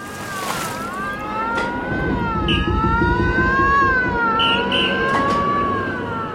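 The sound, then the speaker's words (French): Wailing sirens of a sinking ship at night, sounding as sustained, wavering harmonic tones that hold steady and loud over a low rumble for the whole stretch. “Il a fallu l'envoi des premières fusées et le sifflement des sirènes pour que les gens commencent à comprendre.”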